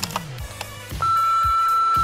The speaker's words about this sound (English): We're just gonna open up the uh, the good old voicemail box and uh, let you guys do the talking.